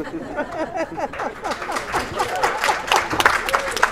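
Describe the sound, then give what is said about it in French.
Audience applause, a brisk patter of many hands clapping, with people talking and chattering over it throughout. “On a le droit d'applaudir. Oui, on a le droit d'applaudir.”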